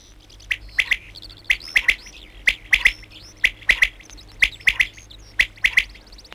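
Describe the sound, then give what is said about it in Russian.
Birdsong: a bird repeats a short phrase of two or three bright, high chirps six times at a steady rhythm, loud and clear over a faint low hum. “Кончается птичий концерт. Звучит последняя песенка.”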